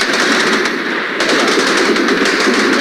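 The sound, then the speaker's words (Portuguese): PIDE secret police agents fire guns from the windows of buildings. The gunfire comes as loud, rapid, continuous bursts that roll on without pause for the whole clip. “Gajos da PIDE que estão a mandar os tiros, já feriram mais uma ou outra pessoa. Falamos da DGS que estão nas janelas dos prédios.”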